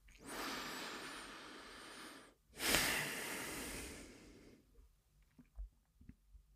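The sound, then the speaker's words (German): A deep breath drawn in and then let out during a guided relaxation: two long, soft, airy breaths, the inhale and exhale each lasting about two seconds, followed by faint small mouth and body sounds, with no talking. “wir nehmen noch ein letztes Mal einen tiefen Atemzug ein und aus”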